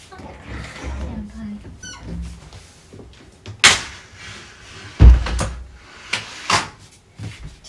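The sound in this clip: A window is slid shut: a few scraping knocks and one heavy low thud, with softer bumps afterward and a voice heard around them.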